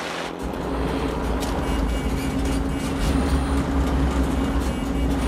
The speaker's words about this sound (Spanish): ¡Acelera! El jeep adelanta a los camiones.